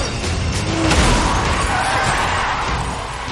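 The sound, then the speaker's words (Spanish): A black car slams into a Mustang during an action-film car chase, producing a loud, dense crash with crunching, grinding noise that holds for about three seconds. “Un coche negro se estampa contra el Mustang.”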